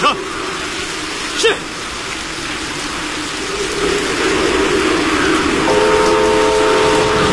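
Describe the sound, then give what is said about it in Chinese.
A train on a test run over a repaired, collapsed section of railway in heavy rain: a steady rumble under hissing rain grows slightly louder, and a tonal horn-like blast enters near the end. “詹天佑夜以继日赶修的铁路坍塌路段终于重新试车了”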